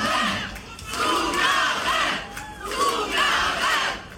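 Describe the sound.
A crowd chants for an encore at a live performance, loud rhythmic group shouts rising and falling in repeated waves.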